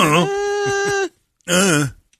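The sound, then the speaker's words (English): A voice imitates a child answering 'I don't know' with a wordless groan: one long, drawn-out nasal tone, a brief pause, then a shorter second groan. “I don't know has become just a groan.”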